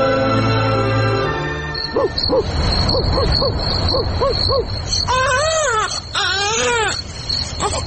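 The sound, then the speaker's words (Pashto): An infant cries without stopping despite seeming healthy, in loud repeated short sobbing bursts that turn into longer rising and falling wails, alone without talk. “دی ماشوم خو مغزه را وخړل، دا ولې نغلی کوي؟”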